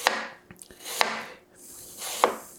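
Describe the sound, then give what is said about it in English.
A knife slicing through a large apple half into half-moon slices: three crisp, loud swishing cuts spaced about a second apart, with a few small taps and clicks between them. “Okay, I'm going to take the other half of the apple, do the same thing. I have these beautiful half moon looking apple slices now”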